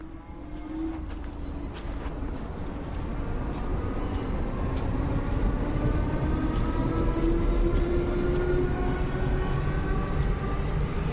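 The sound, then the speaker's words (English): A train pulls out of a station in Surrey: a steady, loud rumble of wheels and running gear, with a motor whine that climbs gradually in pitch as it gathers speed. No voices. “And that's the sound of my train again, leaving Longcross Station, deep in the county of Surrey.”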